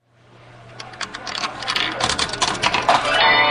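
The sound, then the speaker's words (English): Quarters dropping into a Medieval Madness pinball machine: a busy run of metallic clinks and mechanical clicks over a low steady hum, the clatter thickening and growing louder toward the end. “Ellen Frankel slips the last of her quarters into the Medieval Madness pinball machine and wipes the sweat off her forehead.”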